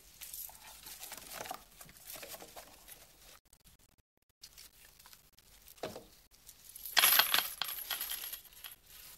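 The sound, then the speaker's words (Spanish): Coins and banknotes are put into an open wooden chest on a dining table: soft rustling and light taps, then a brighter metallic clatter of coins near the end. “Guardan los billetes y las monedas en su interior.”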